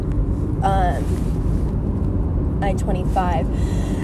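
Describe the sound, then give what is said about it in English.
Heavy road traffic on I-25 is heard from inside a car as a steady, low rumble of road noise that never lets up. A person talks over it for much of the time. “I am in like massive traffic zone, of course.”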